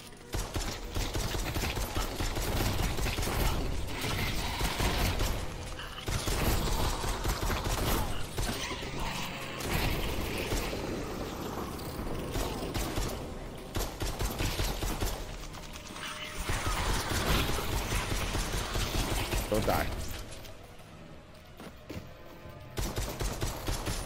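Mechanical clacking and ratcheting of a shotgun being reloaded in a video game, repeated metallic clicks layered into dense, continuous game audio that stays loud throughout with a few brief dips.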